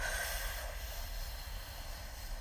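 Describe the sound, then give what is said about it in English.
A deep breath drawn in through the nose, heard as a steady, airy hiss that runs through the whole clip, quiet and with no talk. “Deep breaths in for the count of four. So it's like,”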